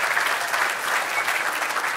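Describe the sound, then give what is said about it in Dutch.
An audience applauding, a dense, steady patter of many hands clapping without pause for the whole short stretch. “Laten we nog een wat harder applaus geven.”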